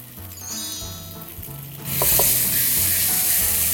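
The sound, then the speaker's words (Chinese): Shiitake-style mushrooms stir-frying in oil and a little oil paste in a pan. A faint low hum gives way midway to a sudden, loud, steady sizzling hiss that continues to the end. “让这个我们的这个素香菇地让它爆香，然后这时候再加那么一丢丢醋下去就好了。”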